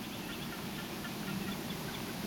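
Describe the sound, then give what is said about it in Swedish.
A lone reed warbler sings a little at night, its faint chattering phrases barely rising above a steady, even background hiss. “Det enda vi har är en rörsångare, en ensam rörsångare som sjunger lite grann.”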